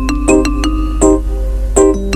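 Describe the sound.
The opening bars of a Turkish oriental song: a few bright, plucked or struck notes ring out one after another with long, shimmering sustain over a low steady drone, loud and without voices.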